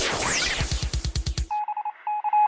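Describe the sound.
Touch-tone beeps as a telephone number is dialed: a quick run of many short, even electronic tones, preceded by a stretch of noisy, rhythmic pulsing.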